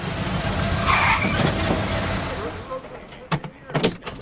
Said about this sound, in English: Bix nervously drives the motorhome. Right here. They pull into the parking lot of a Western bar.